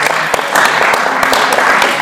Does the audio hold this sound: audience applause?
yes